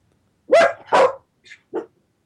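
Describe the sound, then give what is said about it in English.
A household dog barks twice loudly, followed by two shorter, fainter yips, with silence between the calls and no talk. “So that's our dog in the background.”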